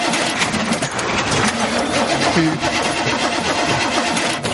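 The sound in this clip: A stalled car's engine churns loudly as the occupants try to start it, a dense, rough mechanical drone running continuously throughout.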